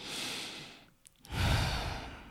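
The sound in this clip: A deep breath: a long, airy breath, a brief pause, then a fuller, louder breath that trails off slowly.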